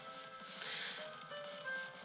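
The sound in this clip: Synthesized MIDI rendition of a song with a saxophone part, made of faint, thin electronic tones that sustain and shift between a few steady pitches over a soft, continuous bed.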